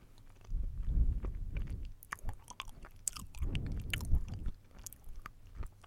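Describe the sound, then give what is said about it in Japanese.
Chewing of a banana, soft wet mastication in two distinct bursts separated by a quieter stretch of small clicks and squishes, moderately loud with no talk. “そのなんかすごいスパンでバナナを食べています。”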